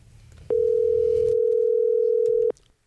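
A telephone dial tone as a call is placed: one steady, unbroken mid-pitched tone lasting about two seconds, loud and alone, with a faint low rumble before it begins.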